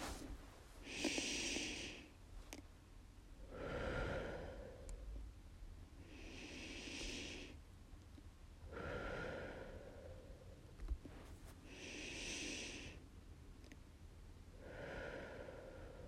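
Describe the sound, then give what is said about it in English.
Slow, deep breaths, soft and faint, rise and fall in a steady, unhurried rhythm. Several airy inhales and exhales are spaced a couple of seconds apart, with no talking. “let's take 3 deep, slow breaths in to begin.”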